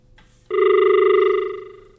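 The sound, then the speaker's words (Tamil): A telephone rings with an incoming call: after a brief quiet moment, one steady electronic ring tone starts abruptly, holds loud and even, then slowly fades away. “அழைப்பு மணி ஒன்று வந்திருக்கிறது அப்படின்னு வச்சுக்கோ.”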